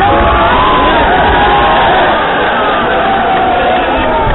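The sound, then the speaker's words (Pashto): A crowd of thousands cheers and roars as it welcomes Hamid Karzai, a presidential candidate, at the sports stadium in Herat. The noise is a dense, steady wash of many voices. “حامد کرزی ته د هرات ښار ورزشي سټډیوم کې زرګونه خلکو هرکلی ووایه.”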